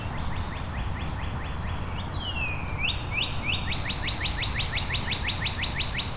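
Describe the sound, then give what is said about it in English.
A northern cardinal sings loud, clear whistled phrases: a run of quick down-slurred notes, a longer drawn-out slurred whistle, then a faster rapid series of sharp notes over a low, steady background hiss. “But it is nearby. Northern cardinal.”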